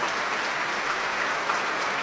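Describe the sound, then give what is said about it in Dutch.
Audience applause after a performance of Tchaikovsky's violin concerto: dense, steady clapping from many hands at a constant moderate level, with no pauses. “het publiek is razend enthousiast over deze prachtige uitvoering van het vioolconcert van Tchaikovsky.”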